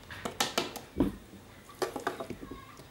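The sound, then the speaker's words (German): A spoon scrapes and knocks against a pot as a small portion of food is ladled into a bowl. The irregular metallic taps and clinks come in two quick clusters and are moderately quiet. “So, ein bisschen tun wir jetzt in eine Schüssel. Davon.”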